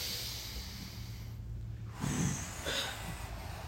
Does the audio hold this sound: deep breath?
yes